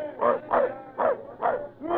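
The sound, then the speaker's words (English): A dog barks aboard a sailing ship under way, with five loud, evenly spaced, mid-pitched barks in a steady rhythm and no talk over them. “Get that dog below deck out of the way!”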